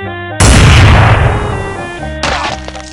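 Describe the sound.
A single loud gunshot blast for a headshot in a video game shooter cuts in over a sustained musical tone. A smaller impact follows about two seconds later.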